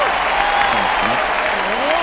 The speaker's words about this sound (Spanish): Tenemos cortina para el aplauso. Mira, también yo tengo, que estaba aplaudiendo como tonto. Quiero mostrar este, tengo ovación.